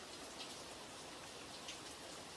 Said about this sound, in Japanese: 先輩も雨宿り？今日雨降るって言ってたのに、傘持ってこないとか何やってんの？